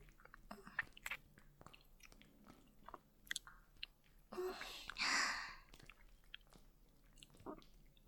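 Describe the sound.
Chewing and biting on food, with many small irregular wet clicks and crunches, faint throughout, plus a longer breathy noise near the middle.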